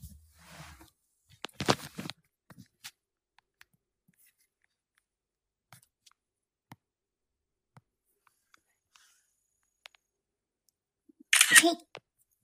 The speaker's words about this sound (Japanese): ペットシーツを引いて、写真を撮りたいと思います。